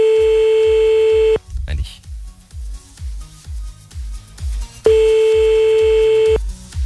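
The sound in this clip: Telephone ringback tone while calling someone back: two long, steady, loud tones separated by a pause of a few seconds, with a low rhythmic thumping underneath throughout.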